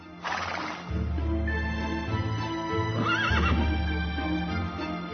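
A mare neighs in two shrill, wavering whinnies, one near the start and one past the middle, over a steady low rumble.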